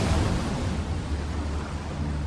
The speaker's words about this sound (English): Daytime, archival video shows churning ocean waves.